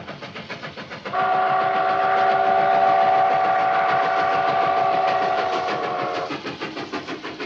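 A train pulling into a station at night sounds a long, steady whistle that holds for about five seconds. It rides over a constant rhythmic clatter and rumble of the wheels, which continues alone before and after.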